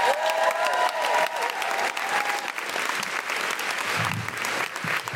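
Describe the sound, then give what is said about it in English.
An audience in Brighton applauds to welcome a comedian onto the stage, with dense, continuous clapping that stays loud and steady throughout. “Fabulous people of Brighton, would you please put your hands together and welcome Deborah Frances White?”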